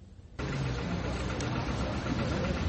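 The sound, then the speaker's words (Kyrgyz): An old tractor engine, a 56-year-old machine that travels at about 18 km per hour, starts abruptly after a short quiet moment and then runs as a steady, loud, rumbling drone with no break. “Виндриф Лангнер өзү жашаган төмөнкү Саксониядан Санкт-Петербургка трактор менен барган. Анысы да эски үлгүдөгү трактор экен.”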